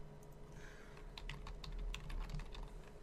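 Someone types on a computer keyboard in a quick, steady run of many light key clicks over a low, constant hum, faint throughout.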